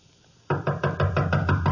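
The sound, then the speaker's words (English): Knocking on a door: after a brief quiet, a rapid, even run of about eight loud, solid knocks. “Just knock on the door and go in.”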